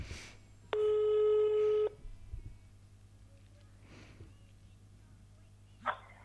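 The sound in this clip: A telephone rings for an incoming call on a live radio phone-in: one steady, bright electronic tone lasting about a second over a low hum, with a short faint chirp near the end.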